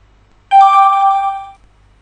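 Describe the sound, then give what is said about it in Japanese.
A chat app's message-sent notification tone follows a press of the Enter key: a single clear, bright chime that rings for about a second and fades smoothly, alone against quiet. “こういう音がして、相手にメッセージが、到達したことを教えてくれます。”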